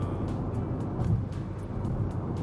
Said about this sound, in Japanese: 車で収録するんだったらもうちょっと静かな車を買いたいね